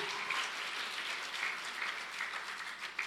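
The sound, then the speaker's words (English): Church audience applauding a preacher, a steady, even patter of many hands clapping for about three seconds at moderate volume. “Let's give him a hand again.”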